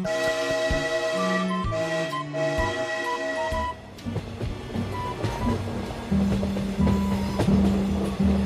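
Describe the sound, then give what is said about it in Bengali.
A train whistle sounds in steady sustained tones as the train pulls away, giving way to dense, rumbling rail noise with further tonal calls over it. “Whistle বাজিয়ে train ছেড়ে দিল।”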